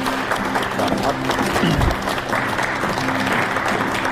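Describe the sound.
A studio audience applauding to see off the former host of a TV program, dense steady clapping from start to finish with a voice briefly audible under it.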